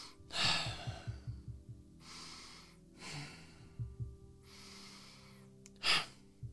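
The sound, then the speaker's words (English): Slow, deep breaths drawn in and let out calmly, several soft airy rushes separated by short pauses, the last one a little sharper and louder. “Take three deep breaths. I said deep, and let's make them calm this time.”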